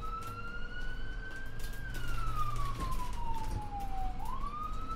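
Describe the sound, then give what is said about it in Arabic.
An ambulance siren wails at night as a single sustained tone that holds, slides slowly downward, then rises again, loud and alone over a low rumble in the first half. “وصلت سيارة الإسعاف، وأضواؤها وسرينتها تمزق أرجاء الليل الصامت”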